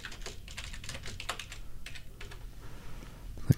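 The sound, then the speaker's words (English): Typing on a computer keyboard: rapid, irregular clicks and taps run steadily throughout at a fairly quiet level, with a single low thump at the very end. “Look up, type in Kim's name.”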